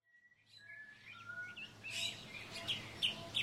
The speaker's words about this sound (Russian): В лесу было чудесно. Светило солнышко сквозь сетку листьев. Чирикали птицы.